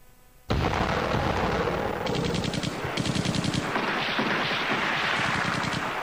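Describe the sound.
Rapid machine-gun fire and booming explosions burst out suddenly after a brief quieter moment, as liberation forces' guns fire across a coastal town during a wartime assault. The loud, dense barrage runs continuously, with sharper volleys of fast gunfire layered over the rumble.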